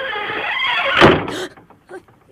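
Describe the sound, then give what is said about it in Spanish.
A door is pushed shut in a room with a roulette wheel and a poker table, giving one loud thud near the middle and a brief second burst right after, over a steady background that then drops to near quiet. “¿Quién ha cerrado la puerta?”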